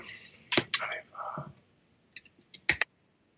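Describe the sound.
Typing on a computer keyboard: scattered, light key clicks in short irregular bursts, with brief quiet speech in between.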